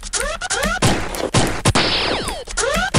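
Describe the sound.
Revolver gunshots in a video game: a few sharp, loud cracks punctuate busy electronic game effects with sweeping tones. No one talks.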